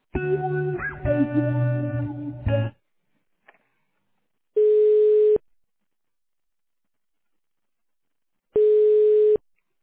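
Telephone ringback tones while a call to a provider's office is being transferred: two long, steady mid-pitched beeps separated by several seconds of silence. A denser, harmonic phone sound plays at the start, before a short pause.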